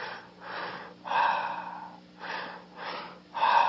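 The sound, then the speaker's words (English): Stepped breathing with a double-step inhale: two short breaths, then one longer, fuller breath. The pattern repeats twice, soft and airy, with no talk. “The third breath is a step breath on the inhale, a double step. So it's like this.”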